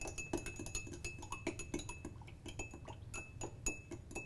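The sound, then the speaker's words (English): A spoon clinks against glass as rum punch made with sugar syrup is stirred. Many light, irregular taps and clinks run throughout, with no voices. “All right, I'm just gonna give this just a little stir.”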